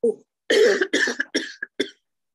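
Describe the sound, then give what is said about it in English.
A short fit of coughing from a tickle in the throat: several harsh, breathy coughs in quick bursts, loud and alone, ending in a couple of short, clipped coughs. “my God, I got like a tickle in my throat. Listen, that's me.”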